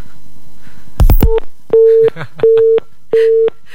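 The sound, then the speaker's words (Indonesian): Telephone busy tone after a caller's line is cut off: a sharp burst of clicks, then three evenly spaced, loud, steady beeps. “Kenapa diputus nih?”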